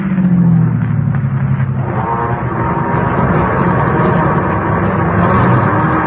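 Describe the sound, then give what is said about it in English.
A car engine runs in second gear after a gear change, a loud, steady droning rumble with strong low tones that continues unbroken throughout, no voices present. “Timed it right. Now shift into second.”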